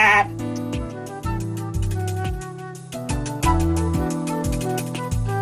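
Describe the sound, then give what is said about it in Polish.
A winter lamb bleats mockingly among sheep: loud, wavering bleats that keep shifting in pitch and run on almost without a break. “Tylko zimowe jagnię szyderczo zamyczało.”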